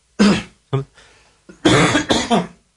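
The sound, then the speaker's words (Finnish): A few harsh, loud coughs in short bursts, one pair and then a quick cluster, with nothing else heard. “suokaa anteeksi, köhäisin, koska se kuuluu tämän ohjelman formaattiin.”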